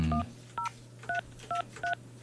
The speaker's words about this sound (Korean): 직접 한번 전화를 걸어보도록 하겠습니다.